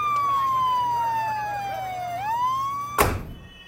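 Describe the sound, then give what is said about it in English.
Fire department siren wailing in one loud, steady tone that slowly falls, then rises again, and is cut off by a sharp, heavy thud near the end. “There's the fire department.”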